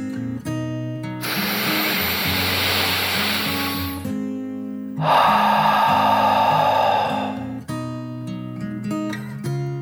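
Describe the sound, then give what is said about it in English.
A deep breath drawn in and then pushed out, heard as two long breathy rushes of about three seconds each, playing over soft, steady background music. “took one final deep dragon breath in and out”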